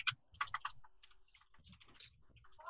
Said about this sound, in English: Can I type? I can type. I can type.